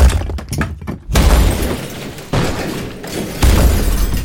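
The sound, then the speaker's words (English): Loud smashing and breaking crashes form a dense run of harsh, crunching noise bursts, choppy at first and then nearly continuous, with heavy low-end thumps underneath. “Ripping. Breaking. Smashing.”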